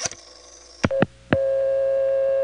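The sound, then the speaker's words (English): A telephone receiver off-hook tone, used here as a special dial tone. Three sharp clicks come first, then a steady, even tone that sounds alone at a constant pitch. “it would switch to the receiver off hook tone, which here was being used as the special dial tone”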